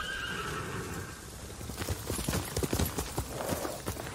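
Horse hooves clip-clop in a video game, with a horse whinnying near the start; many uneven, fairly faint hoof knocks follow in a loose walking rhythm.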